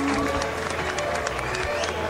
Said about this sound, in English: Come on up here, Natasha. Big round of applause.